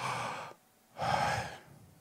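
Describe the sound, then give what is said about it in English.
A person breathes in and then out, two long airy breaths separated by a short pause, with no talk. “If you breathe in, so breathe in for a moment. Breathe in and breathe out.”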